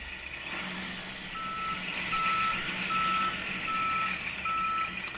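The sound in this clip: Reversing beeps from a garbage truck: a steady, high-pitched beep repeating at an even pace over a low engine rumble, with no talk.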